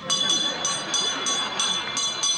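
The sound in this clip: A small hand bell rings, shaken beside a little kettle, giving many quick, bright metallic strikes at an uneven rhythm, each ring lingering briefly before the next.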